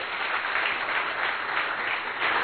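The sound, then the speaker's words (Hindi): Loud, continuous clapping from a group applauding themselves during a session of spoken self-affirmations. The dense, steady wash of many hands holds the same level throughout, with no voices over it. “चलो अपने लिए जोरदार ताली बजाएंगे।”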